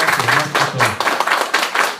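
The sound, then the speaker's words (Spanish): Audience applause and clapping welcoming a guest who has worked for Marvel and DC, coming in uneven swells, with a voice briefly heard near the start. “Les pido a todos, cada uno, hasta las personas que no están aquí sentadas, bola de cortados, un fuertísimo aplauso, por favor, para mi buen amigo Lobo Cuevas.”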